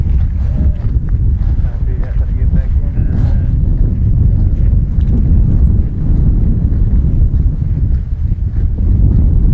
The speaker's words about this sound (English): the wind is really fierce here